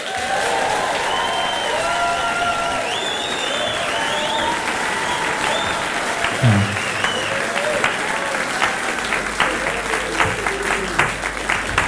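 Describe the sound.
An audience applauds to welcome a band to the stage: dense, sustained clapping with cheering and whistles, holding a steady level throughout.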